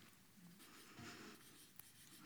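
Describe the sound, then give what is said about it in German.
Faint scratching of a single word being written by hand, a soft continuous rasp with slight variations and a small tap near the end. “Ich schreibe einfach Versöhnung, genau.”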